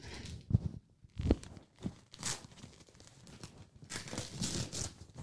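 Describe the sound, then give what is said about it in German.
Crinkling and tearing of black-and-white gift paper as a present is unwrapped, with several sharp rustling bursts and then a steadier crackle of paper. “So, soll ich auspacken oder willst du auspacken? Pack du aus.”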